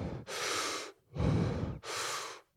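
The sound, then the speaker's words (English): Deep breaths demonstrate a breathing exercise: three long, airy breath sounds, each under a second, separated by short pauses. They are fairly soft and heard alone, with no talk. “And it's a deep breath in, then out.”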